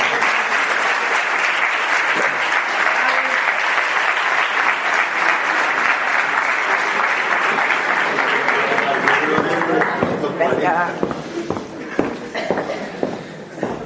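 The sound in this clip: An audience applauds a participant called up to join a Spanish show on mediumship. Dense, steady clapping carries on for about ten seconds, then thins into scattered, uneven claps.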